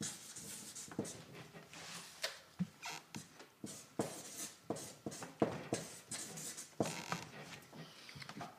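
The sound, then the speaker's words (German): Chalk scratching across a blackboard as someone writes, with many short, dry, scraping strokes in an irregular rhythm, fairly faint and with no talking. “ich kann ja währenddessen schon mal was an die Tafel schreiben”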